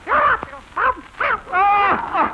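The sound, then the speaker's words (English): A parrot squawking in a few loud, harsh bursts separated by brief gaps, each call strained and nasal with wavering pitch. “Keep that parrot quiet!”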